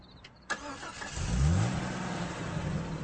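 A Jeep's engine starts after a short click, then quickly revs upward in pitch and settles into a steady, rumbling run.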